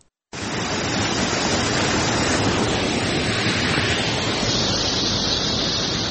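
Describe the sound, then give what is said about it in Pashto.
Flowing water of the Mazar Baba spring in Chora district, Uruzgan province, a loud, steady rushing that starts after a brief quiet moment and continues evenly throughout. “د روزګان ولایت په چوری ولسوالۍ کې د مزار بابا په نوم مشهور چینه د ښکلا او طبیعي منظرې لمخې د دې سیمې د خلکو او د ګاونډیو ولایتونو د سایلانیانو لپاره یو زړه راښکونکې تفریحي ساحه ده. همدې ساحې ته مو بیایو.”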